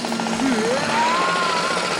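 A neighbours' renovation crew drills before dawn: a whining motor tone climbs in pitch and holds high over a continuous rattling, buzzing texture.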